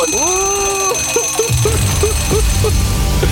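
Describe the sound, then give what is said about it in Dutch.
Electronic alarm-clock ringing: a sustained tone that rises at the start, then a run of rapid, repeated chirping beeps over a rough, rumbling low noise. “En dan word je wakker van. Wekker.”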